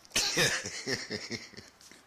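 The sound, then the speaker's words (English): A person coughing: one sharp, harsh burst followed by a run of shorter, rougher coughs at an uneven rhythm, fairly loud and with no other sound over them. “Hey, why are you coughing in there?”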